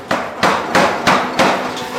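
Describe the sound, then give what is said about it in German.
A hammer strikes a red-hot, 17 kg steel cylinder taken from a forge fire as it is shaped. Heavy, ringing blows land in a steady rhythm, roughly three per second, each followed by a short decaying clang. “Jetzt holt er den 17 Kilo schweren Stahlzylinder aus dem Feuer. 1000 Grad heißer Stahl, den er jetzt zurechthämmert in die richtige Form.”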